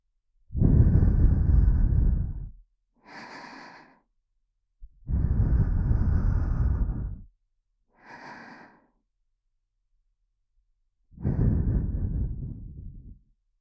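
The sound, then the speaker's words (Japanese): Soft breath blown into the listener's ear for ASMR: three long, airy, whooshing exhalations of about two seconds each, alternating with two shorter, quieter breaths in the gaps, otherwise silent. “お耳をふーっと吹いても大丈夫でしょうか？よかった。それでは、お耳を失礼いたします。”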